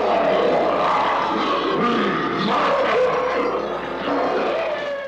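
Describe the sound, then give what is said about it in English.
The Bumble, the Abominable Snow Monster from the stop-motion Christmas special Rudolph the Red-Nosed Reindeer, lets out the King Kong Roar effect: a rough, throaty roar sustained for several seconds at a steady, loud level. “That was the Abominable Snow Monster, aka the Bumble, from the old stop-motion Christmas special Rudolph the Red-Nosed Reindeer. One of the Bumble's vocalizations is a sound effect called the King Kong Roar.”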